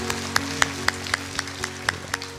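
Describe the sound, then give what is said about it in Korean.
A church audience claps in praise during a Korean worship service, giving about nine sharp, evenly spaced claps in a steady rhythm over a sustained keyboard chord. “우리에게 그런 특권을 주신 그런 DNA를 주신 우리 주님 앞에 감사와 영광 박수 올립니다.”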